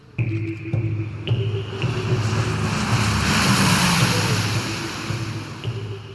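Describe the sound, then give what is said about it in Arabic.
A military airplane takes off from Kabul airport, its engines a loud, steady drone with a low tonal hum under a broad roar that swells through the middle and eases slightly toward the end. No voices are heard. “آب 2021، مطار كابول. آخر جندي أمريكي بيطلع في آخر طائرة عسكرية راح تحلق بعيداً عن التراب الأفغاني”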